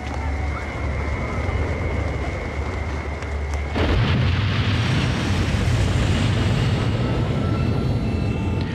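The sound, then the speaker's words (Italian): Deep roaring rumble of a nuclear power plant explosion behind Mount Fuji in a film, a continuous heavy roar that surges louder partway through and stays dense to the end. “In realtà i fuochi che vediamo sono dietro il Monte Fuji, non è la cima del vulcano che esplode. È saltata una centrale atomica.”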